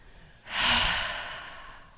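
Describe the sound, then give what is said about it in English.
A single deep breath: a slow inhale swells quickly, then fades gradually over about a second and a half. It is soft, airy and heard alone. “close your eyes, take a deep breath.”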